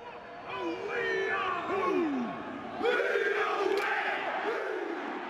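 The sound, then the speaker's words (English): The All Blacks, New Zealand's national rugby team, perform their pre-match haka, a Maori ceremonial dance. Many deep voices chant and bellow in unison, rising into fierce shouted calls, with a broad crowd roar underneath. “What you're hearing is the team famously performing their pre-match haka, a ceremonial Maori dance.”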